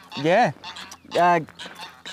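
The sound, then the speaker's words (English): Territorial geese honk twice in loud, nasal, rising-and-falling calls, followed by a few fainter, shorter honks. “Wow, look at these two little geese just walking away from us. We're catching them. Watch out, geese. They're quite vicious, though. They're territorial geese.”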